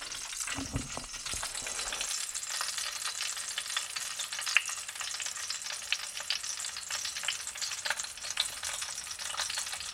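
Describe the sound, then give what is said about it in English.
Food sizzles steadily as it cooks, a loud, continuous hiss with dense crackles and pops running the whole time, with no voices. “Here's a recipe that I'm making right now. You might be able to hear the sizzle in the background.”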